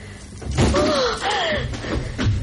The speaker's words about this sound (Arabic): أغلق الباب.